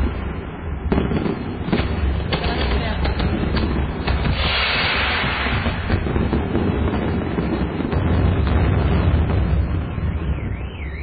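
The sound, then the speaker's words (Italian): Gunpowder explosions and gunfire form a dense, continuous barrage of loud cracks and booms that keeps going without a break. “Non si vede più un cazzo. C'è il rumore della polvere da sparo.”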